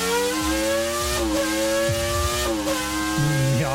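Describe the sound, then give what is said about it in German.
Formula 1 race cars revving, playing loudly from a television: a continuous, high-pitched engine whine from several overlapping cars, with pitch shifting up and down through gear changes. “Vielleicht habt ihr aber auch selber euch mit einer Cornflakes-Schale irgendwie dazugesetzt, ja, und morgens immer Formel 1 geglotzt.”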